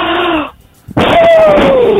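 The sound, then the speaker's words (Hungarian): Forceful blowing at birthday candles comes in two long, loud breath bursts split by a short pause. Each rush of air carries a partly voiced, humming tone, and the second blow runs longer with a slightly falling pitch. “Na még egyszer, akkor fújjuk be ezeket a gyertyákat, jó?”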